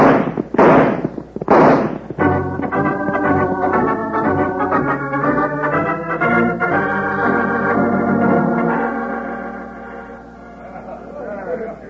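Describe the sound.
Gunshots ring out as a few sharp, loud bursts close together at the start, then give way to a long sustained tonal passage that slowly fades.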